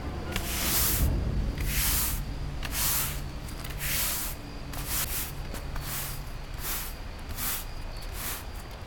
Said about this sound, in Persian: خشخش جارویش به خاک انداز نرسیده بود.